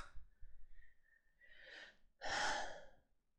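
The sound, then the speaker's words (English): A deep breath is drawn in and then blown out in a louder, longer, breathy exhale, with no talk and quiet moments around it. “I keep taking these deep breaths because I have such an immense amount of beautiful energy flowing through my body and I just have to like breathe it out sometimes.”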